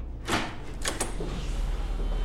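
A door is opened by a guard, heard as a few faint, short clunks over a steady low background hum, with no voices.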